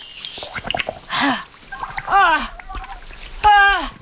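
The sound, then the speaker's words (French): Water from a flask is poured onto a body in a brief, hissing splash. Animated voices gasp and exclaim around it. “Il reste un peu d'eau dans ma gourde, là. Ça te dirait un peu d'eau sur le corps?”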